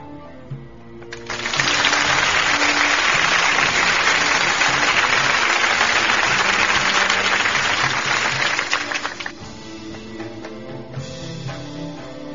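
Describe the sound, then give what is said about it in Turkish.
Audience applause for a performed piece: dense, steady clapping swells up quickly, holds evenly for about seven seconds, then falls away to a low background murmur. “Haydi o zaman şöyle bu güzel eser için kocaman bir alkış gönderelim mi?”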